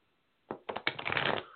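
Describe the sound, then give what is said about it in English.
Playing cards shuffled and drawn for a card reading: a few quick flicks, then a steady papery riffling rush lasting about half a second before it stops. “Let me pull a couple of cards for you.”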